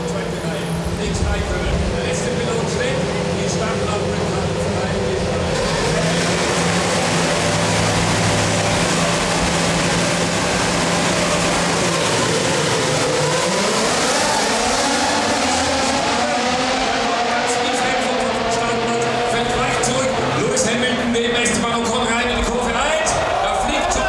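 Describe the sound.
Racing engines at a Formula 1 race start, a continuous loud mechanical roar with layered engine tones that climb in pitch partway through before levelling off.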